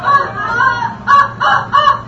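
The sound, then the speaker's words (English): A squeezed toy rooster crows loudly, one long warbling cock-a-doodle-doo followed by a few shorter repeated bursts in quick succession. “Where's my rooster? You got any more fun toys in here?”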